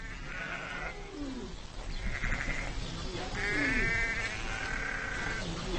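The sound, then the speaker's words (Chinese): A ewe giving birth bleats in several faint, strained, wavering cries spaced a second or so apart, over a steady low background rumble. “分娩中的母羊非常痛苦。”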